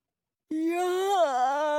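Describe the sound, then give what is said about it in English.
One big drawn-out yawn from a person, starting abruptly and held as a steady low voiced tone with a slight dip and wavering in pitch, heard alone. “Yawn! That wasn't me, or Scarecrow, or Tin Man.”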